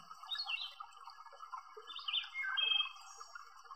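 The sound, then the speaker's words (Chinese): Birds singing in willow trees around an old well in spring: faint high chirps and short warbling trills come in a few loose bursts over a quiet background. “可能在树上还有鸟儿在歌唱。”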